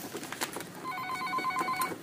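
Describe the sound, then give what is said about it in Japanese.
A telephone rings, its rapid, pulsing electronic trill starting partway through and holding steady for about a second over faint background clatter. “ちょっと電話が鳴ってますが”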